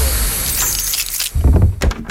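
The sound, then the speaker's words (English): A door opens with a bright, rattling scrape, then a few heavy, low knocks and thumps follow close together. “Ah, that's the thing about doors. Open one and whole new worlds suddenly become possible.”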